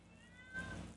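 A cat meowing, heard as one faint, drawn-out meow with a thin tonal wail that strengthens briefly near its end, over quiet background noise.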